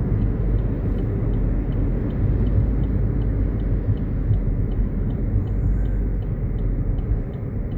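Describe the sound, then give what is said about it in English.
Highway traffic passes in a continuous low roar, heavy and even throughout with no distinct single vehicles standing out. A faint, regular high ticking runs above the rumble. “I got some traffic on the highway.”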